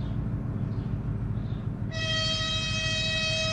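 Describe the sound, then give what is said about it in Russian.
A train door closes as the train starts to move. A steady low rumble runs throughout, and about halfway in a loud, sustained, steady tonal signal begins and holds to the end. “Дверь поезда закрывается.”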